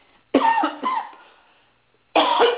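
Someone coughs during a morning allergy attack: a harsh burst of two or three coughs, a brief silence, then another cough starting at the end, with a muffled, phone-like tone.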